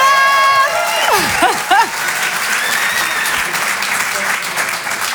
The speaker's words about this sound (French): Je vous demande de faire un maximum de bruit, s'il vous plaît